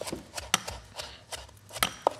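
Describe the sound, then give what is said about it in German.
Knife chopping fresh leafy herbs on a board, a series of soft, crisp taps at an uneven rhythm, faint, with no talk. “In der Zeit kann ich nämlich hier weiterhin meine Kräuter hacken.”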